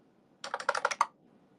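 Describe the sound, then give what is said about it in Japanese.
Typing on a computer keyboard: a brief flurry of quick, crisp keystrokes lasting well under a second, heard alone against near silence. “僕パソコン遅い。タイピング遅すぎる。タイピング遅すぎるからダメだ。”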